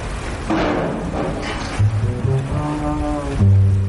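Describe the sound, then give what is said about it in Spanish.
Sea waves washing at a harbour as a boat comes in to dock, a steady broad rush of water with low droning tones joining partway through and swelling near the end. “El barco se aproxima a un puerto. Un hombre lo amarra a un muelle.”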